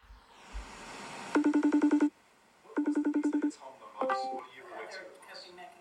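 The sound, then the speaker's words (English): A video call ringtone sounds in two bursts of rapid, evenly pulsed electronic tones, then gives one short chiming figure near the end. The tones are fairly faint and heard alone. “So it starts off with the sound of a video call. This is not your phone ringing.”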